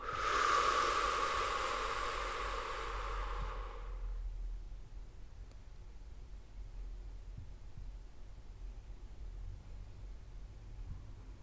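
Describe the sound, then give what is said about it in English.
A slow, deep exhale during a guided relaxation breathing exercise: a soft, breathy hiss lasts about four seconds, then fades into near silence with only a faint low hum remaining. “One more time, inhaling deeply. Exhaling, letting go.”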